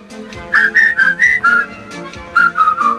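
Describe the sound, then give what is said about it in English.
A person whistles a tune in clear, bright notes, about a dozen short pitched tones in two phrases separated by a brief pause, loud and alone without talk. “continues whistling”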